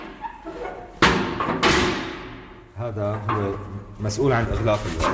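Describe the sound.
A prison cell door lock at Sednaya prison in Syria is opened: two loud, sharp metallic clanks with a rattling tail. A man speaks over the clanking and afterward.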